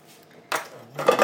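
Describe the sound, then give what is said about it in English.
A dog licks its food dish, making two bursts of clattering, scraping dish noise, a short one and then a louder, longer one. “The dog is licking his dish, which I didn't pick up on this morning.”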